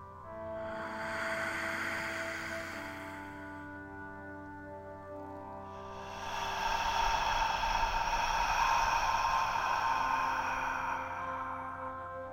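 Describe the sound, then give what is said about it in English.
Slow, deep breaths during a guided breathing exercise, drawn in through the nose and let out audibly through the mouth. Two long, steady rushes of airy noise sound alone, the second louder and longer. “allow your exhales to be audible. Don't hold it in. Inhale through the nose, exhale through the mouth.”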